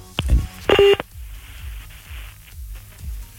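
Telephone keypad tones as a number is dialed to reach a caller: two short electronic tone bursts near the start, the second brighter and longer. Quiet line noise with faint low clicks follows.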